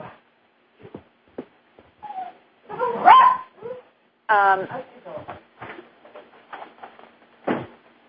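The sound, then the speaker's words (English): A dog gives a series of short yips, whimpers and sharp barks in irregular bursts, some high and whining, others brief and clipped, separated by short gaps. “oh, that sounds like a Nelly dog.”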